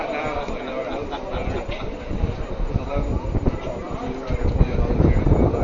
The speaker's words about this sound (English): As I'm sure you can hear the wind.